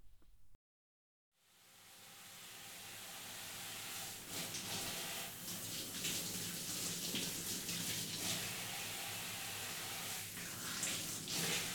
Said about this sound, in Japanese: はい、それじゃあ髪の毛を濡らしていきますね。